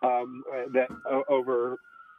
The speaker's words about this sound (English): I hear whistling. It's just the police sirens in the background.